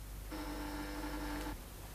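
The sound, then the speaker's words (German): A telephone rings once, a single steady, buzzing ring of a bit over a second that stops abruptly, over a constant low hiss. “Das Telefon. Ich muss hingehen.”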